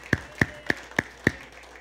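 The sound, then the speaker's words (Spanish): Five sharp, evenly spaced hand claps ring out in a steady rhythm during a Spanish-language church service, each a crisp snap with a bright ringing tone, and no voices heard. “de un aplauso al Señor”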